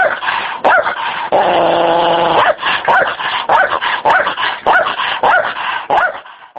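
Stray dogs barking and yipping, a loud run of many sharp barks broken by one drawn-out whining cry, with no voices.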